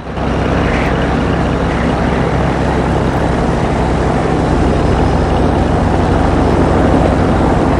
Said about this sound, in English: The aeroplane moves away across the wet tarmac as Mark watches.